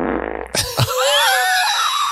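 A wet-sounding fart: a short sputtering burst, then a longer squeaky, tonal tail that stays fairly loud to the end.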